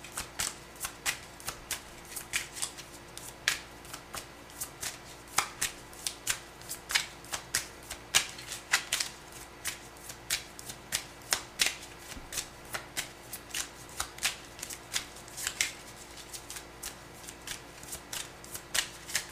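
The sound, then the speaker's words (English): Tarot cards from a Golden Girls deck being shuffled: many quick, crisp riffling and tapping bursts in a steady, regular rhythm across the whole stretch, with no talk. “I'm using my Golden Girls deck again. I love this deck. May I have three cards,”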